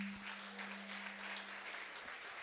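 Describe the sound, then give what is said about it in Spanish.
Audience applause during a church service, a dense, continuous patter of many hands clapping at a steady level, with a low, constant hum beneath it. “Dele aplauso al Rey.”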